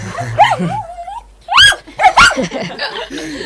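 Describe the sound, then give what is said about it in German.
Timmy, a purebred dog meeting a poodle, whines and yips in short bursts of sliding, rising and falling pitch. A couple of sharper yelps stand out in the middle. “Timmy ist ein Rassehund. Der gibt sich nicht mit solchen Sofadekorationen ab. So. Seht ihr? Er knurrt sie an.”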